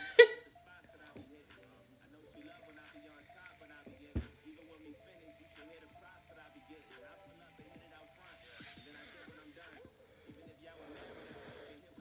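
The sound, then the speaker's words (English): A hard draw on a vape pen loaded with weed gives a faint, breathy hissing inhale that swells over several seconds, with a few soft clicks and snorting breaths around it. “That's the sound of my vape.”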